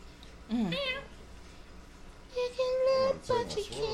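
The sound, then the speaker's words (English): A cat meows a few times: a short cry that bends up and down, then a longer, steady, higher meow and a last quick one. All of it sits over a constant background noise. “Was that the cat?”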